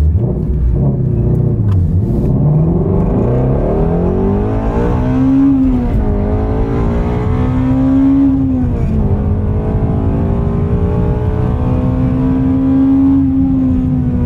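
The V8 engine of a 2020 Ford Mustang Shelby GT350 revs loudly and without pause. Its deep, rumbling note climbs and falls several times, and no voices are heard.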